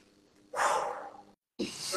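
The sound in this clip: A deliberate breath taken slowly and audibly: a long, airy, breathy rush of about a second, a short pause, then a second breathy sound that is cut off at the end. It is soft overall, with no talk over it.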